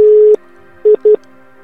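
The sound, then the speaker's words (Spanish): Call-waiting tone on a phone line, signalling a second incoming call: a loud, steady mid-pitched tone cuts off, and after a short gap two brief beeps follow in quick succession. “cuelga porque creo que te están llamando. Y se está juntando la segunda llamada.”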